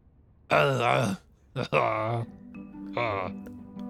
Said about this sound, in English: you hear a groan from the bathroom.